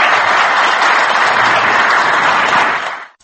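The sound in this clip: A council hall gives a standing ovation for a newly elected mayor of Yerevan. Dense, even applause from many hands holds steady and loud, then fades out quickly at the end.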